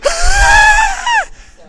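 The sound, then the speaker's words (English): A person deliberately makes a wheeze by forcing air out in a hard exhalation. It sounds as a loud, whistling, strongly tonal note that holds for about a second, then bends downward in pitch and cuts off. “Any of us can provoke we can actually cause ourselves to have wheezing. If you do forced exhalation,”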